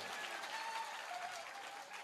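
Hand clapping from a group, a steady, continuous patter of claps that stays fairly faint and even throughout.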